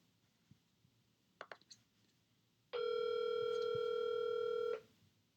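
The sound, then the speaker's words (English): Telephone ringing on an unanswered outgoing call: a few soft clicks, then a single steady electronic ring tone holding one pitch for about two seconds before cutting off, heard alone. “Please pick up. Please. I'll just have to keep calling until my mom calls back.”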